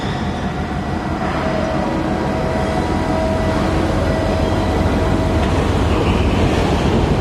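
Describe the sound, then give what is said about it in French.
Dawn ambience on the quay of a container terminal at Yantian: a continuous, dense, rumbling wash of noise with a faint mechanical hum, steady and fairly loud throughout, with no voices. “Le jour se lève à Yantian, sur le terminal des conteneurs, au bout du quai. Là où l'on est amarré.”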